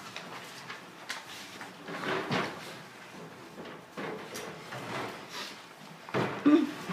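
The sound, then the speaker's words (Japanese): A window slides shut at a church gathering, giving a faint rubbing, sliding rumble with a couple of soft bumps near the end. It is quiet overall, with no one talking. “じゃあ窓を先に閉めてください”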